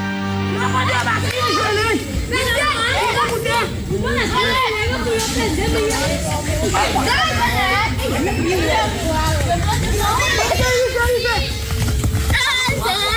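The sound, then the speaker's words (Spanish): Children and girls shouting and chattering while playing football in Haiti, a dense, continuous mix of many overlapping young voices, lively and fairly loud throughout. “Este es el sonido más puro del fútbol. Son niños y niñas jugando en Haití,”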